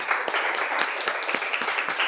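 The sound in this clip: Children applaud a classmate in class with a burst of many small hands clapping, fast and uneven, holding a steady, fairly loud level throughout.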